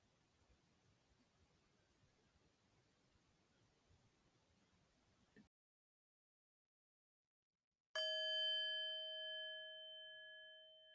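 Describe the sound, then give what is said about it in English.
A bell rings to close a meditation, a single clear strike after a stretch of silence, its bright, sustained metallic tone slowly fading out. “I'll watch the time as you continue in silence and the sound of 3 bells.”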